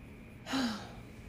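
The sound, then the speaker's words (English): A single short intake of breath, quick and gasp-like with a faint voiced edge, lasting about a third of a second. It is quiet and heard alone, with no talk. “deep breath.”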